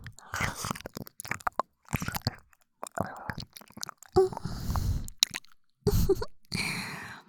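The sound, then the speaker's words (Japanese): Wet mouth sounds of an ear being nibbled and licked: many short, close, moist smacks and slurps in irregular bursts separated by brief pauses, with soft breathy noise. “旦那様のお耳、甘くて美味しいです。”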